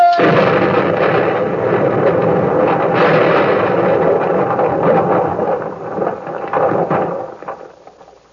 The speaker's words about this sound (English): Torpedo!